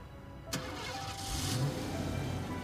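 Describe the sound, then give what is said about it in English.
A car starts with a sharp burst and drives off, turning around. The engine runs with a steady low rumble that swells slightly as it pulls away, with no voices. “He makes a U-turn and drives away.”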